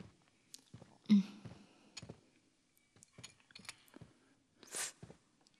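Eating sounds from someone tucking into a dish made with cordyceps: faint, scattered chewing and crunching with a few sharper bites between quiet pauses.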